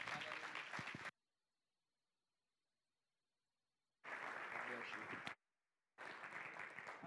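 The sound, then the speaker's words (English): Audience applause welcoming a speaker on a morning, heard as three dense bursts of clapping cut apart by stretches of total silence, the middle burst the longest. “Would you put your hands together and welcome Zeke this morning?”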